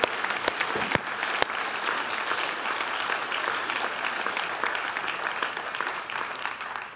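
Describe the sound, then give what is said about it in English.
Congregation applause during a church sermon: a steady, moderate wash of many people clapping, with a few sharper, louder claps standing out near the start, easing slightly toward the end. “And feel free to clap, because I want to clap, okay?”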